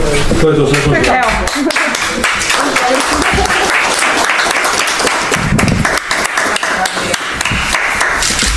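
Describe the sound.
Applause breaks out as the first COVID-19 vaccine in Croatia is given at a home for elderly and infirm people in Trešnjevka, a lively run of clapping with sharp individual claps standing out, steady and fairly loud.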